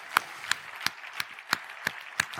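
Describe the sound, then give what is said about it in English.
Hand claps at a motivational seminar: seven sharp, evenly spaced claps in a slow, steady rhythm, fairly faint and alone. “Let's give these people a round of applause for their courage, you guys.”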